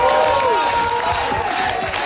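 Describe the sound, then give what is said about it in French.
Supporters cheer a winning candidate's victory on election night in Quebec, a dense, steady roar of crowd noise with rising and falling shouts and whistles throughout. “Acclamé par ses militants après sa victoire, Stéphane Tremblay”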